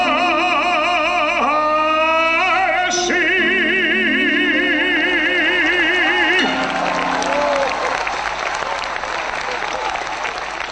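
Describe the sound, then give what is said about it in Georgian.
Applause greets Mr. Vaniko's appearance. Sustained tonal music plays for the first several seconds, then a broad, loud wave of clapping and crowd noise takes over and continues to the end. “ასეთი აპლოდისმენტები ახლდა თან ბატონ ვანიკოს გამოჩენაზე.”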